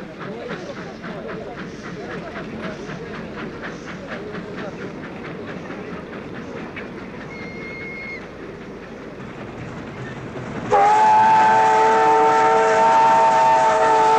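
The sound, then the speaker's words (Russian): A train passing by a station, with a steady rumble and a rhythmic clatter of wheels that give way near the end to a loud, sustained whistle. “Проезжает поезд.”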